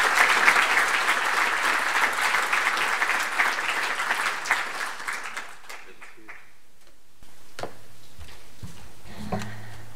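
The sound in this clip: Audience applause welcoming a speaker to a Healthy Streets evening talk in Auckland: dense, steady clapping for about five seconds that then fades away to near quiet.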